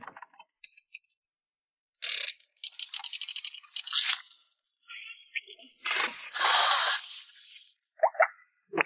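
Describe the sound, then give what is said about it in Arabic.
A pizza making machine running, with mechanical clattering, rapid ratchet-like clicks and longer whirring, hissing bursts between short pauses, with no talking. “رائع، ماكينة صنع البيتزا.”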